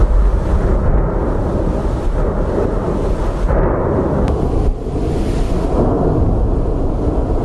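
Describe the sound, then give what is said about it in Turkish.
Deep, continuous roar from a Strombolian-type volcanic eruption with lava flowing down the slopes, a loud, steady low rumble without clearly separate blasts. “Yanardağın yamaçlarından lavlar akarken peş peşe meydana gelen Stromboli tipi patlamalar bölgede endişeye neden oldu.”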